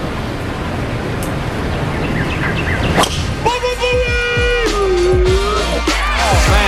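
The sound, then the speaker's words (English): A golf club swing striking a ball, heard as a sharp whip-like crack partway through over steady, broad, surf-like noise. “that was so much easier than putting. I should just try to get the ball in one shot every time.”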